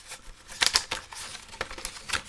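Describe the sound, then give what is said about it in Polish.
Reusable plastic blister packaging is opened and papers are taken out, giving a few sharp plastic clicks and crackles separated by soft rustling. “Otwieramy blister, jak powiedziałem, jest on wielorazowy. Otrzymujemy na sam początek papiery.”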